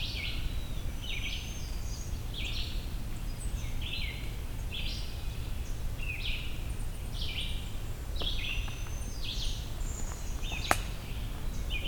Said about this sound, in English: There's a black-capped chickadee somewhere up here.